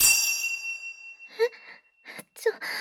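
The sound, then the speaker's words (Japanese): A single bell ding opens with a bright ringing tone that lingers and slowly fades. Soft, breathy vocal sounds follow. “またこれ。なんでベルの音を聞くと、勝手に動いちゃうの？”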